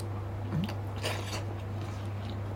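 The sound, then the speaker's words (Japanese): Soft chewing and biting of a hot ramen topping eaten with a fork, a few faint, moist crunches over a steady low hum, with no voices. “今さっき言った具ちょっと食べてみたいと思います熱そう初めてフォークで食べる”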